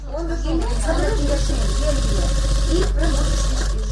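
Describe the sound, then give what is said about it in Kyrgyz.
A sewing machine whirs and chatters as cancer patients sew clothes in a charity fund office, running steadily beneath a person talking. “Эргени коомдук фондунун кеңсесинде рак илдетине чалдыккан жарандар тынбай кийим тигип жатышат.”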